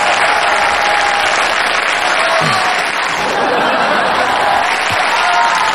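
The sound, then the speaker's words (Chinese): Studio audience applause keeps up steadily for nearly six seconds, with many hands clapping at a constant, fairly loud level and a bit of laughter mixed in. “行了，您别鼓掌了啊！”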